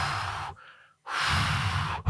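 Slow, deep breathing makes long, airy rushes of breath. Two full breaths are separated by a short silent pause, and a third breath begins at the end.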